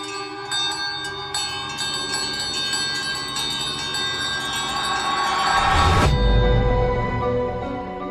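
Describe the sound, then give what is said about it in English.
A servant's call bell in a house ringing by itself, a dense, shimmering jangle of bright bell tones that continues throughout and swells into a louder, deeper rumble near the end. “You rang for me, miss. I did not. Well, Mrs. Ayres was upstairs. Rang itself. Did it? What is all the noise?”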